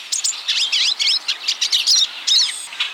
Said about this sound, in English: Hear that? It's the chatter of hungry pine siskins at a thistle feeder.